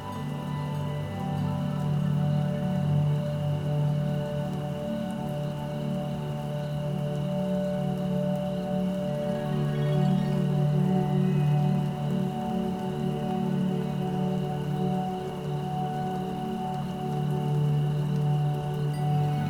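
Steady rain falling, a continuous even hiss with no single drops standing out, blended with a soft sustained droning tone throughout.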